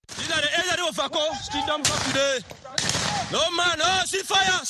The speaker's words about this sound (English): About 30 armed men in a video shoot in the air, claiming to be separatist fighters in Buea